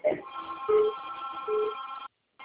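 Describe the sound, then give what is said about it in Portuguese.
A telephone ringing with an incoming call: a steady electronic tone that pulses in a repeating pattern at moderate loudness, then cuts off abruptly near the end. “Oi, tem uma ligação aqui da minha filha.”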